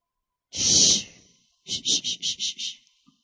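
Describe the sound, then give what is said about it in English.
A deep breath during a calm prayer and relaxation session: one long, airy breath, then six short breathy puffs in an even rhythm, alone with no talk. “Everyone take a deep breath right now.”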